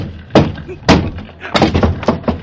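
A locked door is kicked in: two heavy, sharp thuds are followed by a rapid cluster of cracking, splintering blows, each impact loud and abrupt.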